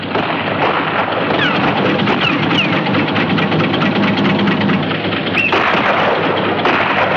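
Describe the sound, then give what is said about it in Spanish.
A boat engine runs again after a makeshift repair, giving a steady, loud, dense mechanical drone that holds at an even level throughout with a slight shift in texture partway through. “Al-Nud ha conseguido que el motor coja de nuevo presión y funcione.”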